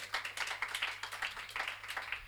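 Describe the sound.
Faint applause from a jazz concert audience cheering the members of a quartet on stage, with many dense, quick claps rising and falling in soft, uneven pulses throughout.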